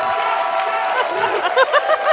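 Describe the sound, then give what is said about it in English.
Live audience cheering and clapping at the UMass Boston Campus Center, a dense crowd roar topped by several high whoops toward the end. “they're pumped. We are broadcasting live before a pumped audience here at the Campus Center at UMass Boston.”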